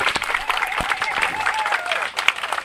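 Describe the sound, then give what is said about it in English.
Applause from an audience at a community event in Mar Vista: dense, steady clapping that holds for the whole stretch, with a few voices mixed into the crowd noise. “Round of applause.”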